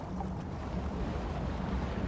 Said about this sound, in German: Seit Wochen kreuzt ein Forschungsschiff über einem submarinen Berg, ein paar Kilometer vom mittelatlantischen Rücken entfernt.